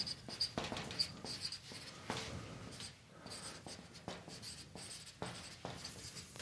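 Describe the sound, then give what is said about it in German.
Handwriting as a word is written out, with many quick scratchy pen strokes in uneven bursts separated by short pauses. The strokes are fairly faint and heard alone, with no talking. “Schreib mal nochmal Ausrüsten hier aus.”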